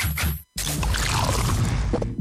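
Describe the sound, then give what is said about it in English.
A new 500ml Castle Light beer can is opened and poured. A brief loud burst and a short pause lead into a long, steady, fizzing pour that fills the rest of the sound. “That is the sound of the new 500ml Castle Light can.”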